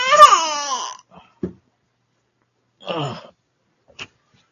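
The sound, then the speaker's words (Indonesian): A young child cries in one wavering wail that slides down in pitch, followed by a few brief, quieter sounds separated by short silences. “Ya, ayah lagi ngaji dulu. Enggak, enggak usah nangis.”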